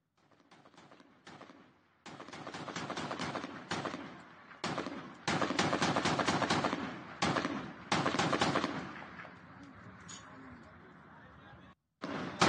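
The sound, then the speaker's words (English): Small arms fire aimed at helicopters in the distance: many sharp, loud cracks and bursts in irregular runs, some rapid and clustered, broken by short gaps. “you can see helicopters off in the distance and small arms fire at them”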